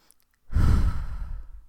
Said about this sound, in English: I'm gonna take in a really deep breath right now.